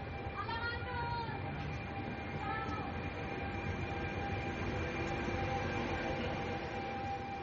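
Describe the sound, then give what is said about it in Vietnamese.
A train carrying migrants pulls out of Catania, giving a continuous loud rumble with a steady tonal hum, plus a few brief higher whining tones near the start. “Chuyến tàu chở những di dân giờ đây bắt đầu khởi hành.”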